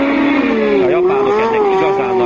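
Formula 1 race car engine at the first Hungarian Grand Prix, a loud sustained whine whose pitch dips, then climbs and wavers.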